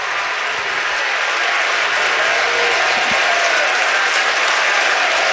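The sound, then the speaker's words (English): Oklahoma fans cheering and applauding along the first-base and right-field line at a baseball championship series game. A steady, dense wash of clapping and crowd noise holds at an even, loud level for the whole stretch. “And now the Oklahoma fans, who are along the first base and right field line, are making noise, trying to encourage the freshman to make this a 1-2-3 inning.”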